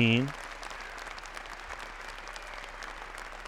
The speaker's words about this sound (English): You don't need to hear that much applause.